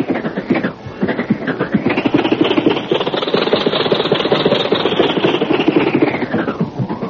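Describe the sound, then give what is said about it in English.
The engine of an old 1927 Maxwell car runs with a continuous, rough, sputtering chug of rapid, uneven pulses. It stays loud and steady throughout. “Jack's famous 1927 Maxwell”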